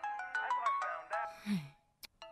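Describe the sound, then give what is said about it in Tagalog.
A phone ringtone for an incoming call: a quick melodic run of short, bright tonal notes with strong harmonics that pauses briefly and then starts again. “Teka, sino naman itong tumatawag sa akin? Ba't tumatawag si Tita?”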